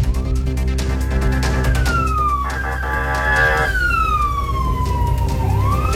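A police vehicle's siren blares as the vehicle enters an anti-kidnapping police headquarters compound in Ñuñoa at high speed, a loud wail that sweeps up and down in pitch over a constant roar of engine and road noise.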